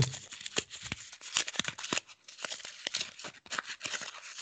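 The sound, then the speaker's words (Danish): A paper post-it note peeled off and unfolded: many short, irregular crinkles and crackles in quick bursts, faint, with no talk. “trækker en post-it op. Ja. Og folder den ud.”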